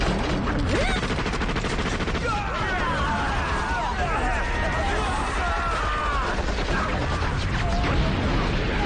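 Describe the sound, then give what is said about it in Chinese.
Machine-gun fire during a wartime battle, a dense, continuous clatter of shots blended with other battle noise and shouting voices throughout. “不好，我们的机枪手倒下了！ 旷野，机枪给我！”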